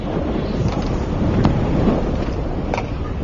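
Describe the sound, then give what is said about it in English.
Strong wind roars and buffets the microphone as a steady, loud, rough rush with no clear gaps or lulls. “But even though their flight's over, the wind isn't quite finished with the crew.”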